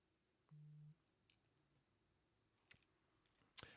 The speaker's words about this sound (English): I'll click back on the link.